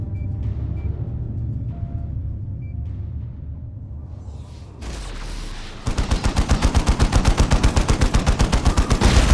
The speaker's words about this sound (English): the turret atop the palace wall that mere seconds ago had sprung to life and spat fire at them.